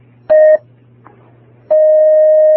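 Telephone line tones as an incoming call connects on air: a short electronic beep, a brief pause over a low steady hum, then a sustained unbroken tone.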